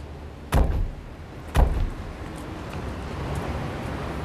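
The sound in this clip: Car doors open as people are ordered out of a car during a police traffic stop: two sharp, heavy thuds about a second apart, followed by a steady low rumble of background noise.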